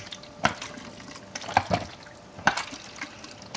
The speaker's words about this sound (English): So this one's a full minute, and I got 20 inversions to do.